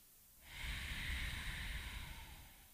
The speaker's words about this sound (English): And as always, Pretty Mental family, take in a deep breath with us.